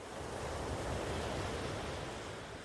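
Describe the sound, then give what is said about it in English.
Ocean waves on a beach: a steady, full rushing wash of surf that stays loud and even throughout, with no distinct breaks between waves and no voices. “let the sound of the ocean waves wash over you, calming your mind”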